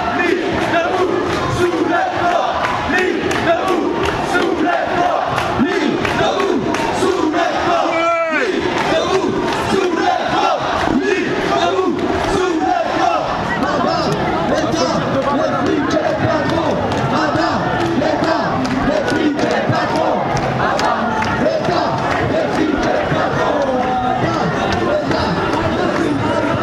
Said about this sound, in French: Derrière le cortège CGT, les manifestants les plus déterminés font entendre leur voix.